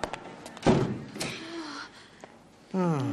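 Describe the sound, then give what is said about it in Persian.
A door is shut in an audio drama scene, landing as one sharp, loud thud followed by quieter rustling, before a voice starts speaking near the end. “سنگز در رو ببند”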